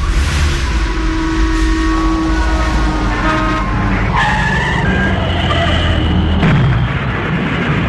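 A car starts up and drives off on a slippery road, its tyres skidding with loud, continuous noise and shifting tonal squeals that rise and fade, plus a brief horn-like toot.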